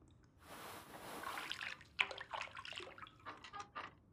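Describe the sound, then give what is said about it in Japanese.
Hot bath water sloshes and drips as a right foot is lifted out of the tub. The splashing is faint and irregular: a soft wash of water followed by scattered small drips and trickles. “ひとまず片足だけ。 右足だけお湯から出していただけますか？”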